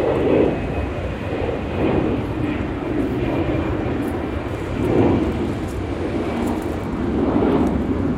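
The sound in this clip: Airplanes flying low over a caravan site make a continuous, broad engine roar that swells and eases a few times without stopping.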